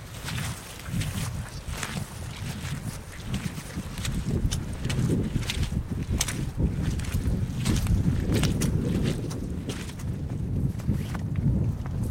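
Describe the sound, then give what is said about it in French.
Wind blows across a hilltop summit 233 metres up in Brittany. It makes a steady, loud low rumble and buffets the microphone, with scattered crackles and clicks throughout. “Alors que le vent souffle sur cette colline, est-ce qu'on peut se rapprocher un peu du sommet de la colline? Oui. Pour avoir encore plus de vent.”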